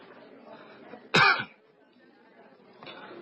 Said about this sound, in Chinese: 吴少周尴尬地咳嗽了一下